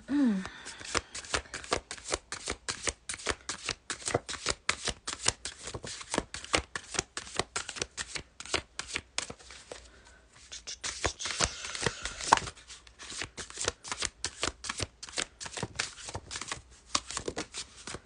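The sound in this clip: Tarot cards being shuffled: many rapid, crisp card flicks in continuous riffling bursts, with a short lull partway through before the shuffling picks up again.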